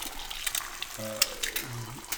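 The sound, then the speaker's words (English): An egg fries in a pan for a breakfast sandwich, giving a faint crackling sizzle with scattered small pops. “Nothing like an egg hitting the pan.”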